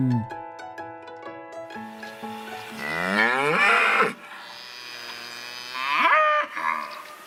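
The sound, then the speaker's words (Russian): A cow mooing, with two long, loud moos, the second shorter than the first, sounding over a steady tonal backing. “Коровка говорит му.”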